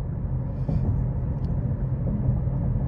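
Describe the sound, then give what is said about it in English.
A car pulling into a parking lot, heard as a low, steady engine and road rumble from inside the vehicle, continuous and even throughout. “Just got to pull into the parking lot. Oh, dangerous. Here's me recording while driving.”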